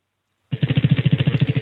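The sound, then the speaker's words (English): A prize wheel is spun in a morning call-in game, its clicker ticking out many rapid, evenly spaced clacks that start suddenly after a short silence and keep a steady, loud rhythm. “All right, let's spin the wheel and see what you've won.”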